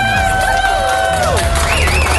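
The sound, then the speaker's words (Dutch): An award show audience cheers and applauds for the Artist of the Year, a loud, unbroken roar of voices crossed by high, gliding shrieks and whoops. “Ik wil nog even één keer een groot applaus voor onze Artist of the Year female.”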